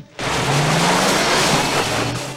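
A car engine roars as the car reverses into a cave. After a brief quiet moment, a loud, steady rumble with a low droning engine tone holds, then eases slightly at the end.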